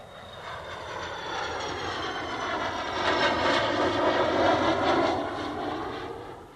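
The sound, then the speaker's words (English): An airplane flies past with a steady, broad engine roar that swells to its loudest just past the middle and then eases slightly, with no voices. “This is a plane.”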